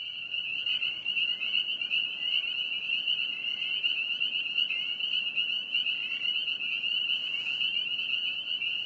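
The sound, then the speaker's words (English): A dense chorus of spring peeper frogs gives off steady, overlapping high-pitched peeps that form a continuous shrill drone with no pauses and no voices. “If you guessed spring peeper frogs, you're right.”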